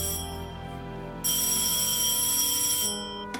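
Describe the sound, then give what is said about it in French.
A telephone rings on the line after an English number is dialed, a steady electronic tone that turns louder and brighter partway through, then eases near the end. “L'homme décroche son téléphone et compose un numéro anglais.”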